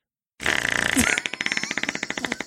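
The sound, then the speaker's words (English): A voice imitates a fart with a buzzy raspberry blast that breaks into a long run of rapid sputtering pops. It is loud and sounds alone. “But he'll do farts like”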